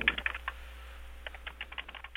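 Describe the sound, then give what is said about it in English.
Typing on a computer keyboard: many quick, light key clicks in an uneven rhythm, denser at the start and again toward the end, fairly faint and with no voices. “I'm just typing all this down. I don't have a tape recorder at the moment, so I'm just having to type it all out.”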